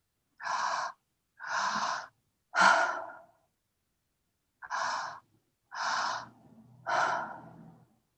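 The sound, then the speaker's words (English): Six breaths during a breathing exercise, each a soft, airy rush of about half a second with short gaps between them. The last is longer and trails off more slowly, and no one speaks. “just letting gravity, atmospheric pressure, your muscles, just to release the breath. You don't have to do anything.”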